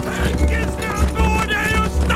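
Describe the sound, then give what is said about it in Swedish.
Galloping hoofbeats of a horse, a rhythmic run of low thuds heard under shouting voices. “Orvar red nu långt framför oss. Kom igen, Grim! Kom igen!”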